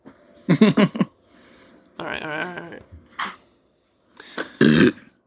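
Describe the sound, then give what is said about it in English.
Throat clearing in several rough, gravelly bursts separated by short pauses. The bursts are harsh and fairly loud, with near silence between them. “What? I'm just clearing the throat, bro.”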